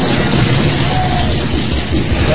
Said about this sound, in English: Oh, yeah, that's the sound of people riding the roller coaster and the Big Shot high atop the tower of the Stratosphere in Las Vegas.